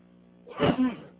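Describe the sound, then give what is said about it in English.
A single sneeze, aimed away from the microphone: a brief, muffled burst with two quick peaks, moderately loud and with no talk around it. “I had to sneeze there, and I didn't want to sneeze in the microphone.”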